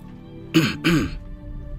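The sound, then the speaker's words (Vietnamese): A dry throat clearing in two short, rough bursts close together, heard alone with no speech around it. “Lâm Động cuối cùng ho khan một tiếng, chắp tay mà nói.”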